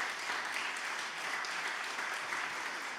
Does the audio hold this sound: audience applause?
yes